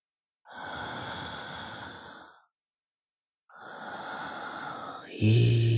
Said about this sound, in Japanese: 私と一緒にゆっくり呼吸しましょう。